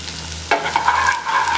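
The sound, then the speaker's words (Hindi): Garlic and chopped ginger frying in a pan: a sizzle bursts in sharply after a moment of low hum and carries on steadily, with faint stirring scrapes mixed in. “Fry कर लेंगे और इसके अंदर हम डालेंगे ये लहसुन और ये कटी हुई अदरक,”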